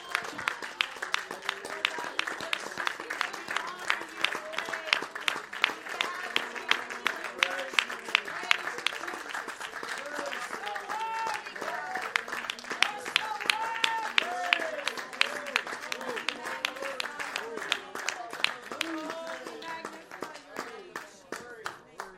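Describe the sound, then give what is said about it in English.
A church audience at a Sunday service claps hands in praise, a dense, steady applause lasting about twenty seconds with voices calling out over it. “Would you join me in welcoming Jesus into the service today? Give him a big hand clap of praise.”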